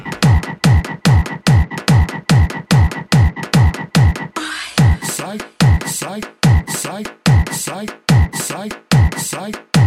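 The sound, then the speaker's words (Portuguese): A frog croaks again and again in a fast, even rhythm. The croaks are loud, short and throaty, with a brief break near the middle before they carry on at the same pace. “Sai sapo, sai sapo.”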